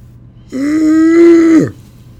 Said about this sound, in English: What was that? I was just inhaling some air.